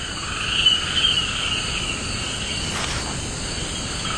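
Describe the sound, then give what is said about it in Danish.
Jungle ambience in Papua New Guinea: a dense, steady chorus of crickets and other insects. It hums continuously at an even level with no voices. “Lyden du hører er fra Papua Ny Guineas jungle.”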